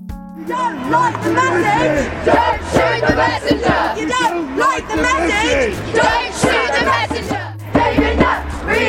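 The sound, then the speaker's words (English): A protest crowd outside Parliament in 2009 chants loudly in unison against the dismissal of a psychiatrist and policy advisor. Voices rise and fall in rhythmic shouted phrases with whoops and a constant crowd roar. “That's the sound of a protest taking place outside Parliament in 2009. They were protesting the dismissal of psychiatrist and policy advisor David Nutt.”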